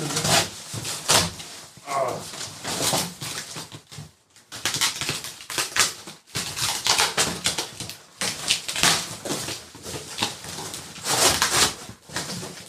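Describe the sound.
Rustling, crackling and scraping as a heavy parcel is opened by hand without a knife: a dense, continuous run of handling noises broken by two brief pauses.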